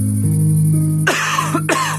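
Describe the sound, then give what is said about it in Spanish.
A person coughs a couple of times, harsh, breathy bursts that cut in after a low, steady humming tone, which continues beneath them. “Una tos puede convertir tus sueños en la peor pesadilla.”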